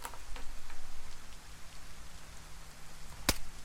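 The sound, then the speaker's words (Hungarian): Rain falls in a zombie video game as a steady, continuous patter of drops. One sharp click stands out near the end. “Elindulok az esőben.”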